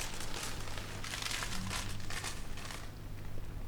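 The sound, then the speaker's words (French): Paper crinkles faintly as a purse is wrapped in it, with soft, irregular rustling bursts over a steady low background hum. “Maintenant, prenez votre bourse et enveloppez-la dans ce papier.”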